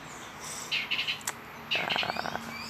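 A bird perched on metal security bars sings two short bursts of bright, rapid chirps and trills separated by a brief pause. The song is fairly faint over a soft background hiss.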